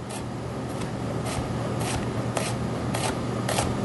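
A knife cutting thin slices of onion on a cutting board makes faint, crisp, evenly spaced cuts, several in a row, over a steady background hiss.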